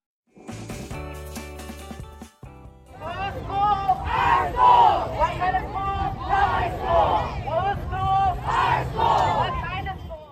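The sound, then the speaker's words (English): Students, teachers and parents from Oakland schools protest school closures and mergers in the street, a loud crowd shouting and chanting in surging, rhythmic waves of voices. “We just heard students, teachers, and parents from a number of Oakland schools out in the streets protesting the district's plan to close or merge”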